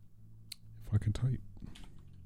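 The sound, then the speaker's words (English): Brief typing on a computer keyboard: a few quick clicks in a short burst, mixed with a voice. “If I can type.”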